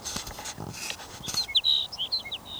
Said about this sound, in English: Sage Sparrow number 7.